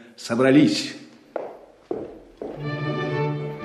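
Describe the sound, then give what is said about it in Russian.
Horses stamping and neighing in a back yard: drawn-out, harmonic whinnies and a few sharp hoof thumps, moderately loud. “Прощай, я слышу на заднем дворе топот и ржание коней.”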